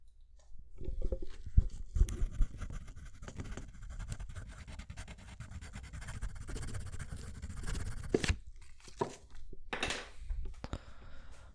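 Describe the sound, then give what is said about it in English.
A pen scratches across paper in a continuous run of soft, dry scraping strokes. It stays quiet throughout, with a few sharper strokes near the start and no voices. “Or maybe you're writing a poem.”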